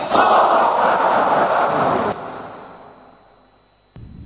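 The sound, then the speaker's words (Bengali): A crowd at a religious gathering with a sheikh chants the takbir, Allahu Akbar, in one loud unison shout. It cuts off sharply and fades away, and a new burst of chanting starts just before the end. “এখন আমি মুসলমান ভাইদের বলবো শেখ বিদাতের হয়ে সবাই মিলে তাকবীর দিতে, আল্লাহু আকবার, আল্লাহু আকবার, আল্লাহু আকবার।”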